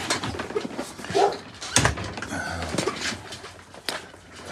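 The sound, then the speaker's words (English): A dog barks in the background, a few short sharp barks rising out of a steady backdrop of outdoor noise. “my dog Augie's barking in the background.”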